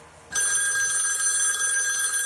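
A telephone bell rings as the bullpen call during a baseball game. After a brief quiet moment, a loud, continuous ringing starts and holds steady until the end.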